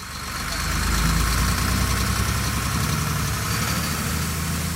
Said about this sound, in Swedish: Chauffören kör ut på vägarna och styr söderut.